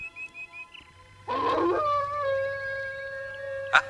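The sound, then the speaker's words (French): A wolf howls: one long, fairly loud, sustained tonal cry that settles onto a steady pitch and holds for a couple of seconds, heard alone after a few faint sounds. “C'est le loup.”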